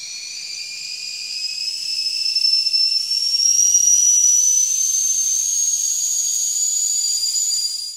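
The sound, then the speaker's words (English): A whistling kettle gives a steady, piercing high whistle with a second tone above it. The pitch creeps gradually upward while the loudness swells and then holds, sounding alone throughout. “The sound you just heard was a recording of a whistling kettle.”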